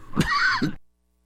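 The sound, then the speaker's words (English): A single rough, throaty cough from a person, voiced and raspy, lasting well under a second before silence. “why does it always happen that as soon as I hit the button to talk to you folks, I start to cough? I apologize for that.”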